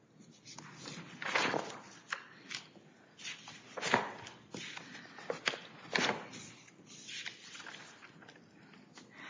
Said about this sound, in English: Your Honor, if I can just flip to my brief.